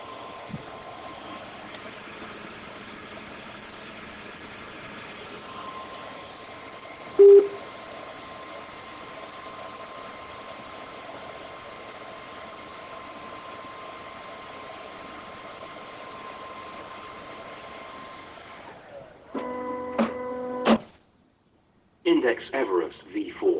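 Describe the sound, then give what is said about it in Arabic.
A 3D printer's cooling fan runs with a steady, low whirring drone as the printer starts up, broken once by a brief click and followed near the end by bursts of electronic beeping tones. “هو الآن صوت المروحة اللي بدل على أن الطابعة الآن بدأت تشتغل.”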